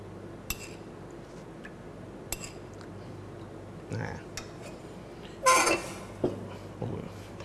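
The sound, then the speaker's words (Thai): A spoon clinks against a pan as about three tablespoons of coconut cream go in for a peanut dipping sauce cooked over low heat: a few sharp, light taps and one louder scraping burst over quiet background. “เบื้องต้นนะครับเราจะใส่หัวกะทินะครับลงไปนะครับประมาณ3ช้อนโต๊ะนะครับ”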